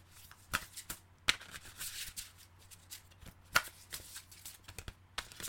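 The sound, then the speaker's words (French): Tarot cards being shuffled by hand during a live card reading: soft papery riffling with many sharp, crisp snaps scattered irregularly, a few louder than the rest. “Je vous le fais en live, n'est-ce pas Je bats les cartes en même temps.”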